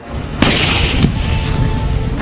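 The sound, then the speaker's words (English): Artillery and mortar shells landing on advancing infantry: two heavy, sharp explosions, the second about half a second after the first, each bursting into loud, sustained roaring noise and low rumble. “The frame captures the moment of the sudden arrival of artillery and mortars to the Ukrainian infantry.”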